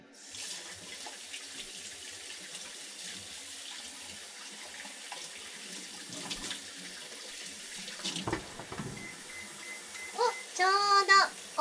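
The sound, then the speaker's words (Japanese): Water running steadily from a tap while hands are washed under it, a soft continuous stream with a few louder splashes and clatters near the end. “ちょっと手洗うよ。”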